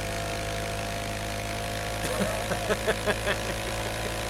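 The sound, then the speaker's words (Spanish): An old motorcycle engine runs with a steady, rough mechanical drone. In the second half, a series of sharp, evenly spaced pops and clatters breaks through. “Es una moto como del tiempo de Cristóbal Colón.”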